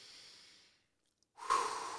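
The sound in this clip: Deep breathing: a soft, airy breath fades out into a short silence, then a louder, rougher breath swells up and holds through the end.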